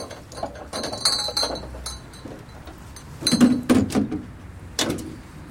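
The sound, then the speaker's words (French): Glass clinks as ice and whisky are poured into glasses from a motel room minibar: a few bright, sharp chinks spread unevenly, with a cluster of quick taps in the middle and a final clink near the end. “C'est l'occasion de trinquer. Whisky glaçon ? Whisky glaçon. Attends, je m'en occupe.”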